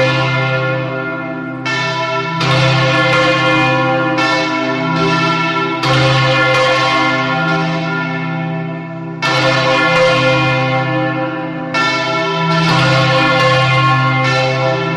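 Swinging church bells ring for vespers on the eve of Villarreal's patron saint's day, a loud, continuous peal of many overlapping resonant strikes, deep tones sustained beneath brighter clangs, with no voices.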